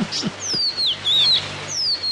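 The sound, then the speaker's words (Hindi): Small bird chirping as it flits between branches, giving several thin, high whistles that slide downward, with a few soft low taps near the start. “कुछ देर तक वो उस चिड़िया का इस डाल से उस डाल थिरकना देखते रहे।”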